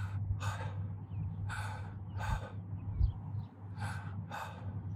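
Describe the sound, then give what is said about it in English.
Soft breathy exhalations from a voice imitating the Hebrew name of God with breath alone, without tongue or lips. Three paired breaths, faint, over a low steady hum. “Because you're not supposed to use your tongue or close your lips. And so the name of God is breath. It's breathing.”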